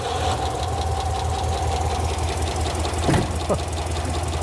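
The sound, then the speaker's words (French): An old V8 car engine idles roughly, misfiring and running on only about four cylinders with one side's fuel supply dead. It makes a steady, low, uneven throb with a brief faint knock partway through. “Non, pas pour un V8. On dirait qu'il tourne sur 4 ou 5 cylindres. À mon avis, seulement 4.”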